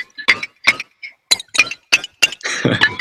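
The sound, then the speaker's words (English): Tiny plates clink in a library sample: a series of sharp, bright, separate clinks with short gaps. A denser, rattling cluster of clinks comes at the end. “Which is basically some tiny plate sounds.”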